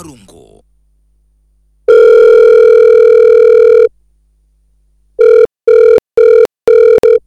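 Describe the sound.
Electronic telephone ringing tones, loud and clean: one long steady tone of about two seconds, then after a pause a quick run of short, evenly spaced beeps.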